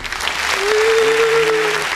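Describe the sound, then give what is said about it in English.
A round of applause, steady clapping from a small group, with a drawn-out voiced cheer sustained over the middle of it. “Round of applause.”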